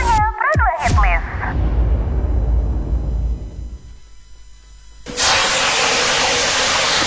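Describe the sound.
Hot oil sizzling and spattering, heard as a sudden loud, steady hiss that bursts in partway through after a fading noisy stretch. A brief voice is heard at the start.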